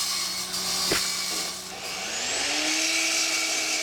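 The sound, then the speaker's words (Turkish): A power tool cuts metal angle pieces for building grills, giving a steady, high, gritty whine with a brief knock early on and a tone that climbs in pitch later in the cut. “Rick'le birlikte ızgaraları hazırlıyoruz. O onları yaparken ben de açılı bağlantıları kesiyorum.”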